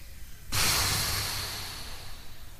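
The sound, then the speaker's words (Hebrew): People blow hard to put out big candles lighting a ship: one sudden, forceful whoosh of breath that starts loud and slowly fades away, with no voices. “קחו מלא מלא אוויר. ונשוף. עוד פעם.”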